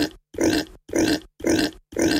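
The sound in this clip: Pig grunting: loud, rough grunts repeated in an even, steady rhythm, each burst nearly identical, with short silences between and no voices.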